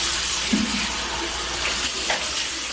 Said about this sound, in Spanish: las imágenes muestran al narcotraficante lavando su rostro y su cabello en un lavabo